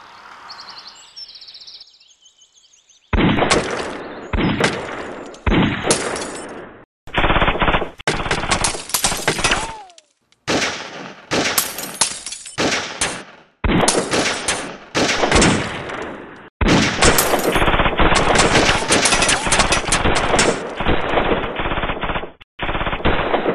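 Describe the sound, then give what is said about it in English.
Gunfire from a shootout: many loud bursts of rapid automatic fire separated by brief gaps, becoming a longer unbroken barrage toward the end. “Well, boys, looks like we're gonna have to start shooting.”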